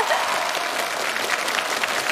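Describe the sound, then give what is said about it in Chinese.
An audience applauds, making a dense, steady patter of many hands clapping. It is fairly loud and sustained for about two seconds and carries a faint trace of voices under it. “我们掌声送给这位女英雄”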